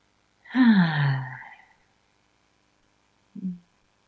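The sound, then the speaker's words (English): A big, deep breath taken during a guided relaxation with hands on hearts, let out as a voiced sigh that falls in pitch. After a pause comes a short, low vocal sound. “we put our hand on our hearts and take a big, deep breath”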